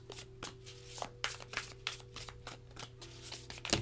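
Tarot cards are shuffled and handled in a quiet run of rapid, irregular flicks and soft taps, with a sharper snap near the end.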